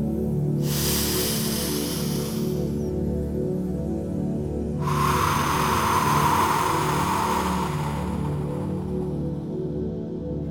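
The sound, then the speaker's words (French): Deep breaths in through the nose and out through the mouth during a guided relaxation exercise: two long, airy hissing breaths, the second louder and longer, over steady soft background music. “Fermez les yeux et prenez une profonde respiration par le nez, puis expirez par la bouche.”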